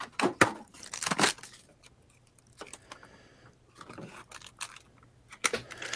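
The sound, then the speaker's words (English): Packaging of a collectible figure being ripped open, a few loud bursts of tearing and crinkling separated by quieter rustling. “So I'm going to rip it open.”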